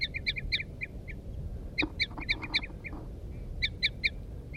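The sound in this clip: Short, high bird calls from a female and a male answering each other. The chirping notes come in a few quick clusters over a low background rumble.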